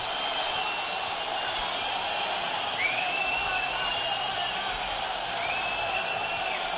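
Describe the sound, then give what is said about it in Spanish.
A stadium crowd jeers Betis after a 0-1 home defeat to Valladolid. A loud, steady roar of many voices runs throughout, with a few shrill whistles sliding up above it. “La bronca del público, ganó el Valladolid 0-1, Escalera. Escuchen.”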